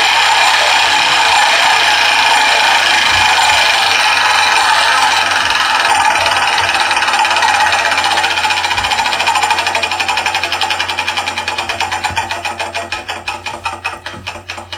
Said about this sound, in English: Spin the wheel once again.